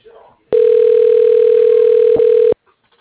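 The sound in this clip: A telephone call is put through to an office extension as a single steady line tone of about two seconds with a brief dip near its end. Faint voice traces come just before and after.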